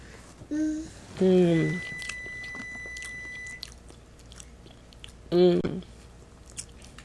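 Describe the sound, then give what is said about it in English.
Soft, irregular, wet chewing and biting sounds of someone eating, broken by a few short, high-pitched voiced squeals. “Time to eat. Yummy, yummy.”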